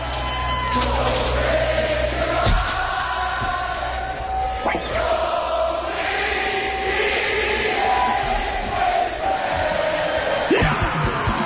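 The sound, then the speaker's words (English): A concert audience sings along, a massed crowd of voices holding sustained, wavering tones with occasional shouts. The sound is loud and continuous throughout. “I got to hear the audience sing. I don't like it.”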